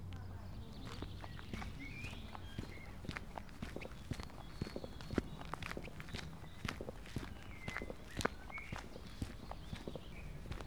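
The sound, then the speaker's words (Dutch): Footsteps walk along an old forest path on an early May day: many faint, crunching steps at a steady, regular pace, with thin bird calls in the background. “Over een oud bospad loop ik naar de Naturentuin”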